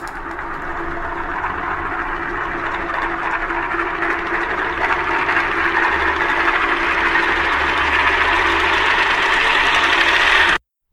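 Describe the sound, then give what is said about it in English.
A spinning top whirs in a continuous, buzzing drone that stays loud and even for about ten seconds, growing slightly brighter toward the end before cutting off abruptly. “The sound you just heard was a recording of a spinning top.”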